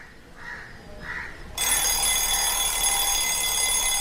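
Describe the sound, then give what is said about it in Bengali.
An alarm clock rings at dawn, set for five in the morning. After a couple of faint short chirps, a loud, harsh, continuous ringing starts abruptly and holds steady to the end. “ঘড়িতে alarm দিয়ে ভোর 5টায় উঠে”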